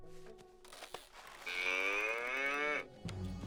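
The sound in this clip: A single cow moo, a drawn-out lowing call of over a second with a slight upward pitch sweep, preceded by a few faint clicks and knocks.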